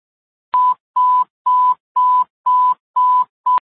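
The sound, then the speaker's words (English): Fire dispatch alert tones before a call for a truck and EMS: seven identical mid-pitched electronic beeps in a steady, evenly spaced rhythm, loud and clean, the last one cut short. “Listen, you disregard your tones.”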